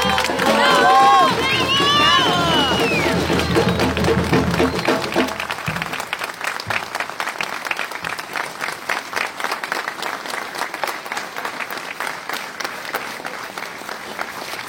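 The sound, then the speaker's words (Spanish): Audience applause at a gathering, offered for the students who once studied at the place: a voice speaks at first, then sustained, dense clapping from the crowd carries on steadily for around nine seconds. “Vamos a hacer un fuerte aplauso para los chicos que estudiaron acá, porque ellos están acá presentes.”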